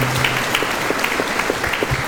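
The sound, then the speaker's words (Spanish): Applause for the families at a church service, the audience clapping in an even, continuous patter at moderate loudness, with no talk over it. “Un aplauso para ellos y que Dios siempre les bendiga.”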